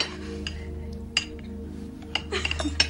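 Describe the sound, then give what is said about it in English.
A spoon clinks against a soup bowl while hacking at bread soaked in soup: a few faint, irregular metallic taps and scrapes over a steady low hum. “sticks his spoon in his bowl. He hacks at bread swimming in the soup.”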